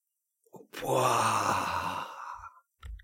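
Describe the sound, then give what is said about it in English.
A deep breath drawn in, then let out slowly as a long, breathy, partly voiced sigh lasting nearly two seconds, with a brief soft sound just before it and another after it. “Take a big, deep breath in, and then let it out slowly.”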